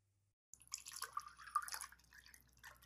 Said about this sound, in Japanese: 牛乳を入れるね。牛乳は、あった。じゃあ、少しずつ入れるね。